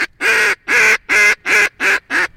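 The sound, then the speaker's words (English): Six loud, drawn-out quacking blasts from a duck hunter's high ball call, the hail used on spotted ducks, blown in a steady, evenly spaced rhythm with short gaps between notes. “when you see ducks, you want to give them what they call a high ball or come look at me type call.”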